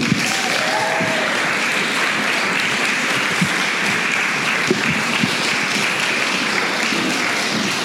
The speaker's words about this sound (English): So please put your hands together for Maria De La O.